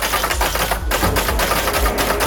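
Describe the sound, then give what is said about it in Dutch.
Typing on orange typewriters set out in a library in Zwolle, with people hammering the keys, gives quick clacking keystrokes over a steady, dense wash of background noise. No voices are heard. “Hij zette in een bibliotheek in Zwolle een hele rits oranje typemachines neer, waar mensen lekker kunnen rammen op die toetsen.”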